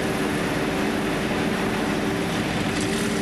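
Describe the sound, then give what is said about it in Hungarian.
Steady roar of a military training jet arriving after an exam flight during pilot training at Szolnok: a continuous broad engine rush with a constant low hum beneath it, holding an even loudness from start to finish without voices. “A sikeres vizsgarepülés után a pilóta és gépe méltóság teljesen érkezik.”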